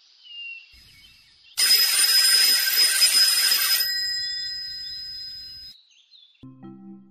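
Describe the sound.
A bell rings for about two seconds in a loud, bright continuous burst. Its high ring lingers and slowly fades, a faint steady tone comes before it, and a few short low tones follow.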